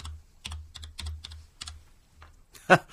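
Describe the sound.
Typing a password on a computer keyboard: an irregular string of light plastic keystrokes with uneven pauses, ending in one noticeably louder keypress.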